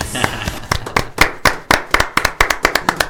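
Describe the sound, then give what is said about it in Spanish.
Clapping used as a sound effect to suggest a crowd applauding. Many sharp, loud hand claps arrive unevenly at first, then settle into a quicker, steadier rhythm, with no voices. “Fíjate, ahí están los aplausos, creo, fíjate abajo de todo.”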